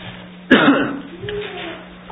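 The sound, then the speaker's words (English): A single sharp cough bursts out during a sermon. It is sudden and loud, with a short raspy throat-clearing tail that fades into faint voiced murmuring. “maybe it's just my throat that's says, hey, you need to cough”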